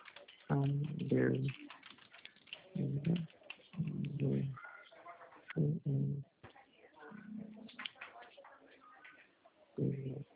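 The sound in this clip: Light clicks of typing on a computer keyboard into a web browser, scattered in short bursts between stretches of talk.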